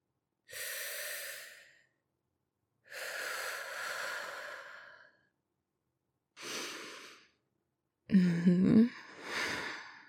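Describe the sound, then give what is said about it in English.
Heavy, ragged breathing from someone hyperventilating comes in four loud breathy bursts with pauses between. The last burst is harsher, with a gasping, voiced edge. “Baby, slow down, baby. You're gonna hyperventilate. Take some deep breaths with me.”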